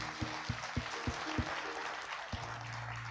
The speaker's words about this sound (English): Let's give him a hand, yeah.